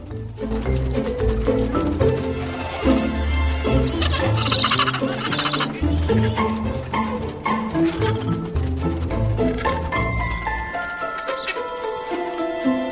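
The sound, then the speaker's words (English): Penguin chicks call in a dense, overlapping chorus as they gang up and chase a skua, their shrill, clucking cries continuing without a break at a steady, fairly loud level. “Working as a group, the penguin chicks surround the skua.”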